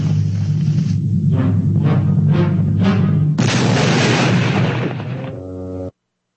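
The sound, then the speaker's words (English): A cartoon explosion from an exploding cigar: a few rhythmic thumps lead into a sudden loud, roaring blast that rumbles on, fades, and then cuts off abruptly. “So he blew up the guy? Yeah, he blew up.”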